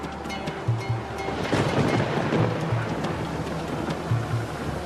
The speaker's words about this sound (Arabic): العاصفة يا رب، العاصفة.